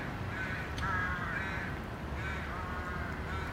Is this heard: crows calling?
yes